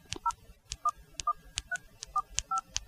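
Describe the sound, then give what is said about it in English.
Short dual-tone keypad beeps as a number is dialed on a smartwatch dialer screen: several separate tones, each paired with a sharp tap click, in an uneven rhythm. Faint, with no talk. “So this is presumably the dialer screen, so I could actually just dial a number on here, could I?”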